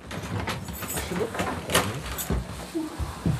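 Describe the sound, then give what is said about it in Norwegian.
A large bunch of keys unlocks the door of the stately main building at Eidsvoll, with a few metallic clicks and clunks over steady background noise. “Det skal et stort nøkkelknippe til for å låse opp den staselige hovedbygningen på Eidsvoll.”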